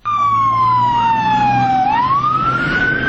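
An emergency siren wails at the scene of a suicide bombing in Kabul, where fire engines and ambulances responded. One loud, continuous tone slides slowly downward, then climbs again, over a steady low engine rumble.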